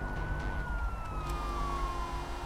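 An ambulance siren wails on a highway, a steady tone falling slowly in pitch over loud, constant road and traffic rumble.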